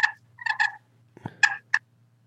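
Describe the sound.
Turkey call worked on a slate: a few short, raspy, chirping notes in separate bursts, one pair close together, with a low knock between them and quiet gaps around each note.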